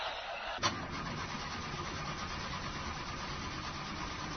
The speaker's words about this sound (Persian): استارت نمیخوره